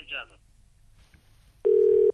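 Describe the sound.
A telephone dial tone sounds after a call is cut off: a single loud, steady, unbroken tone that begins abruptly and lasts about half a second. It follows a brief faint noise and a near-silent gap.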